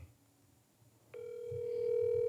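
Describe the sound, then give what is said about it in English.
Ringback tone of an outgoing telephone call: faint low background noise, then a steady electronic tone begins about a third of the way in and holds unbroken to the end. “Let's call her back. This is going to be cool. Let's see if she'll pick the phone up.”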